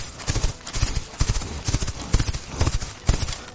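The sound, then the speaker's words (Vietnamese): Many galloping horse hooves pound in rapid, overlapping clusters of loud thuds, an uneven drumming rhythm that continues throughout. “Hắn quay đầu nhìn về phía nam, với giác quan của hắn đã có thể nhận ra phía nam có những chấn động rất mạnh. Chấn động này hẳn là do rất nhiều móng ngựa sinh ra.”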